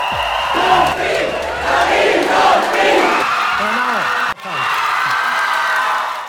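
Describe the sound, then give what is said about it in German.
Wine region fans cheer loudly at the German Wine Queen election, with continuous whooping, shouting and applause. The noise holds steady for several seconds, dips sharply for a moment, then swells again. “Ein festes Element bei der Wahl der deutschen Weinkönigin sind jedes Jahr die mitgereisten Fans aus den Anbaugebieten. Die waren auch diesmal wieder hochmotiviert und laut. Sehr laut.”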